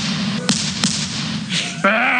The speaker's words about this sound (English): I'm going to take my shotgun and shoot you here, Ivan.